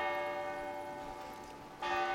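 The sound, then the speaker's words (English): Church bells striking noon on a square in Munich: a bright, sustained ringing tone hums and slowly fades, then a fresh, louder strike rings out near the end. “On Odeonsplatz in Munich, church bells strike noon.”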